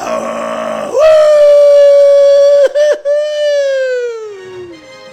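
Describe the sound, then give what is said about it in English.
A hoarse, rough wolf howl starts with a ragged, noisy onset, then swells into a loud sustained tone. The tone breaks off briefly, resumes, and slowly slides downward as it fades out. “That wolf was having a bad starter. Yeah, the beginning of that was rough. That's a wolf that smokes a pack of Reds every day.”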